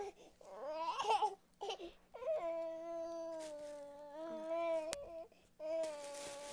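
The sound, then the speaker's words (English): A young child whines at a high, wavering pitch in several drawn-out bouts, each separated by a brief pause. “You shouldn't whine like that.”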